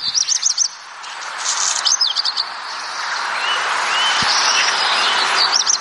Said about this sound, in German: Der nistet viel in Gärten, aber auch viel in der Nähe von Häusern. Und der singt auch sehr, sehr schön, finde ich. Hier, klingt so.